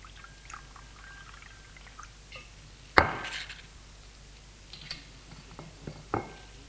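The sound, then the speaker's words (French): Water poured into a glass at a table while medicine is being prepared: a sharp clink is followed by a short, soft stream of pouring, with a few faint ticks and another light knock near the end. “Pour prendre un verre et le remplir d'eau.”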